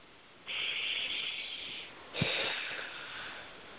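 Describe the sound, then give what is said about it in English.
Slow, deep breaths during a guided healing session: two long, airy, hissing breaths drawn and released, fairly soft and heard alone without talk. “And three nice deep breaths.”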